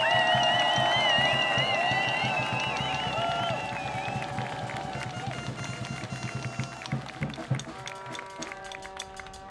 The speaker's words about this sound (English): So give it up, a very warm round of applause